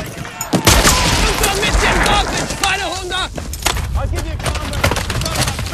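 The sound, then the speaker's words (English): Gunfire as a Ranger shoots a surrendering German soldier amid a WWII beach-cliff assault: many sharp, cracking shots in rapid bursts over continuous battle noise, with voices shouting in between. “Suddenly, a German soldier stands up with his empty hands raised. As others surrender, a Ranger shoots him.”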